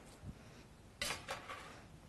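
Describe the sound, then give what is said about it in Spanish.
A six-cup metal muffin tin of magdalenas is slid into an oven: a faint knock, then two quick, bright metallic clinks and a short rattle, all quiet. “Ya las voy a meter aquí en el horno”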